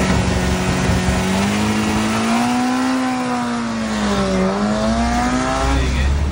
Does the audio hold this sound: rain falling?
no